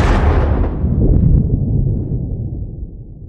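A bomb explosion erupts as a loud, broad rumbling roar that swells briefly and then slowly dies away, with no voices.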